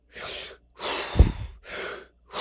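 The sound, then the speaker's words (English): Deep, full breaths in a breathing exercise: slow, airy inhales and exhales in a steady rhythm, with one longer, stronger breath in the middle. “like that, you do that 30 times, and I mean big breaths. Let your stomach go out so you expand and do a real full breath.”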